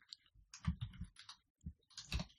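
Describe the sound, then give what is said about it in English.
Faint computer keyboard key presses for a Control-Z undo shortcut, light clicks arriving in a few quick, irregular clusters in near silence. “Okay, let's Control Z. Hit Control Z so I can keep going. Oh, wait, don't type anything yet.”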